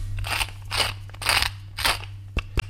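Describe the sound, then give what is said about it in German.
A pepper mill grinding whisky pepper gives four rough, crunchy ratcheting bursts in a steady rhythm, followed by a couple of sharp clicks. There is no talk over the grinding. “jetzt brauchen wir ein bisschen Pfeffer. Moment. Wir haben 4 Pfeffermühlen und ich weiß immer nicht, welcher Pfeffer wo drin ist.”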